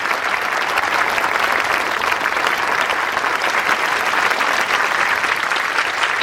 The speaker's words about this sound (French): les lauréats sont mis en avant et les familles énamourées applaudissent. C'est la remise des diplômes.